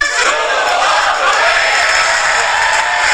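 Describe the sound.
Studio audience cheering and whooping, a dense, steady roar of many voices that holds at full strength for about three seconds without a break.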